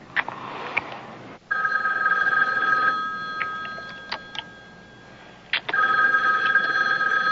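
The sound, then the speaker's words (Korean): A telephone rings for an incoming call in a film scene. There are two long, bright ringing bursts, separated by a quieter stretch with a few sharp clicks. “그때 매니저 러치가 전화를 걸어왔습니다.”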